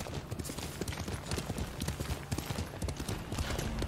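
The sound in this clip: Horse hooves clip-clopping in a steady, rapid run of many faint thuds over a broad background rush, with no voices.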